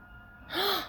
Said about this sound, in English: I could have sworn you were just loudly breathing there. That's the problem with you mouth breathers. You make fucking sound.